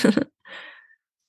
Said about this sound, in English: Taking a really deep breath in. And you can do this with me now. I'm doing it.